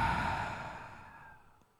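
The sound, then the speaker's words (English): A deep breath during a guided breathing exercise: one long, breathy exhale, loudest at the start and gradually fading to silence over nearly two seconds. “Let's take a big breath in together through the nose and a big breath out.”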